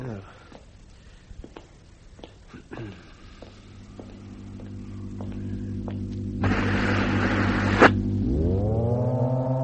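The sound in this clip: An elevator descends with a low droning electrical hum and layered whine. A few sharp clicks come early, a burst of hissing noise follows midway, and the tones sweep upward at the end.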